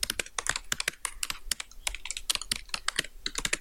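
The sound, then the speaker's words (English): Rapid typing on a computer keyboard, with fingers thumping the keys in many sharp, uneven clicks and clacks, some in quick bursts and others spaced by short pauses. “That's me thumping my keyboard.”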